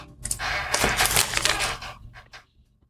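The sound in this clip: Close chewing of a piece of cheese with bloomy rind: dense, crackly mouth noises run steadily for about two seconds, then fade into a few faint, brief bursts.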